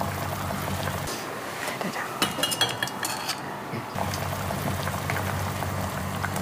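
A pot boils after young tamarind leaves are added, giving a steady, hissing bubble, with a few light metallic clinks of utensils partway through.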